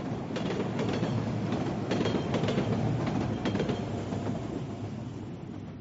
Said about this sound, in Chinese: 我曾经无数次离开和到达的车站，我就要离开南京这座城市了，非常的不舍。